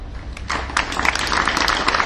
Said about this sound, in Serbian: Pozdravili ste ga aplauzom i to je lepo